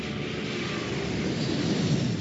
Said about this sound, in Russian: Но ее слова заглушил рев взлетающего самолета.